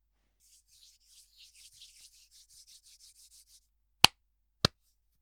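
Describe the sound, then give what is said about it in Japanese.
Hands rub together in a long series of soft, dry, swishing strokes that stay quiet and evenly paced. Two sharp, loud clicks like hand slaps follow, well apart, in an otherwise silent setting. “まずは手の音を聞かせてあげるね。”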